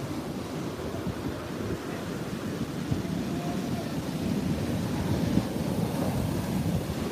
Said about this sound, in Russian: Вот она водичка. Вот она родная.